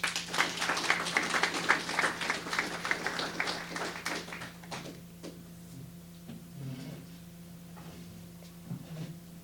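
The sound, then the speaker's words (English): Applause greets two speakers at a public talk on relocating the Waterton Lakes National Park visitor centre. Lively clapping lasts about four seconds, then thins to a few scattered claps over a steady low hum. “Please give a warm welcome to Leslie and Gary.”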